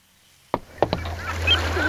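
Audio logo of the Ear Hockey audio game, featuring a boat and children: a few sharp hits open onto a steady low drone layered with swirling, splashy and squeaky textures.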